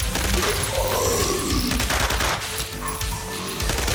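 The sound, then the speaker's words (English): Repeated rifle gunfire during a retreat to the stairs in a fight at an ice station, a loud, dense barrage of rapid shots that runs without a break. “I yelled behind me as I let my rifle lead the way. Shot after shot hit their target as we fall back to the stairs.”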